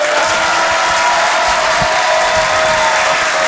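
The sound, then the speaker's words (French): Audience greets a comedian with loud, continuous applause and cheering, a thick, unbroken wall of clapping that holds at full strength from start to finish. “Mesdames et messieurs, ladies and gentlemen, oh, Ibadallah, faites du bruit pour Boudère!”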